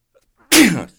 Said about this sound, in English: That sneeze went live over.